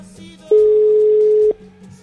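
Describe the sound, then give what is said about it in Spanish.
A telephone tone sounds while a call is being placed: one steady, mid-pitched electronic tone lasting about a second, starting and stopping abruptly over faint low background sound. “Vamos a hacer llamadita entonces.”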